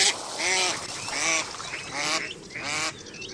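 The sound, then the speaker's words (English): Mallard ducks calling: four nasal, arching quack-like calls in an even rhythm, fairly faint, with no talk. “In spring and summer, there are so many errant peeping ducklings for the females to corral.”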